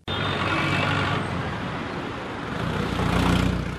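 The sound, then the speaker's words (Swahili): Morning street traffic in Yangon, Myanmar, with cars, motorbikes and pedestrians: a steady, dense roar of engines and road noise that swells slightly toward the end. “Yangon, mji mkuu wa Myanmar. Kukuruka kara za asubuhi, mwenye gari, pikipiki, mwenda kwa miguu, maisha yanaendelea.”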